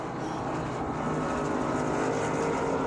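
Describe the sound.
Race car engines roar on the Le Mans circuit in a dense, unbroken wall of engine noise that stays loud throughout.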